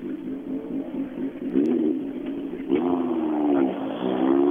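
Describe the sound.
A BMW race car engine revs hard as it drives off quickly, a loud, steady buzzing drone that climbs in pitch partway through.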